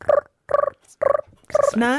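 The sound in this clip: A human voice imitates a pigeon with four short throaty, guttural coos in a steady bouncing rhythm, the last one stretching into a rising, drawn-out tone.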